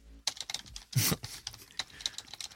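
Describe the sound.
Rapid typing on a computer keyboard to enter an answer into an on-screen box for a speaking machine. It is a dense run of light, clicky keystrokes with one louder clack near the middle.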